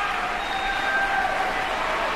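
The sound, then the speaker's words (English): Steady applause from a standing audience after an orchestra concert, a continuous wash of clapping held at an even level. “Well-deserved applause. The audience on their feet as well for a fantastic performance tonight.”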